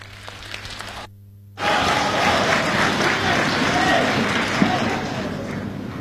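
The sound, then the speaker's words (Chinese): Audience applause for a crosstalk comedy performer at a weekend comedy club, a dense, steady wash of clapping from a crowd that swells in after a brief gap and stays loud and sustained. “感谢大家的掌声， 谢谢您的热情。”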